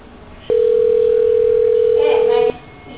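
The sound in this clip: A telephone dial tone sounds while a call is being placed: one steady, loud hum that starts abruptly, holds for about two seconds, and cuts off just as suddenly.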